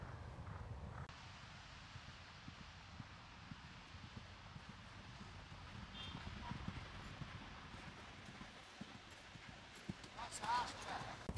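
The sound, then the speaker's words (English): Hooves of a mare striking off into a canter on her left lead after a trot-and-canter warm-up: faint, uneven low thuds repeating throughout, set against soft wind and rustling. “So she just had a bit of a trot and canter before. Warm up. Yep. Get the blood flowing. Yeah. And now she's off. Yeah. She always strikes off on her left leg.”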